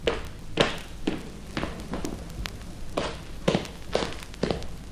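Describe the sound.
Footsteps of a man walking on a stereo test record, many soft thuds at a steady, even pace, quiet and with no talk over them.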